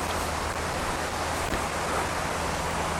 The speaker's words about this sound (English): The other problem is the water is very high at the minute and very fast. So it's going to be very difficult for you to hear what I'm saying.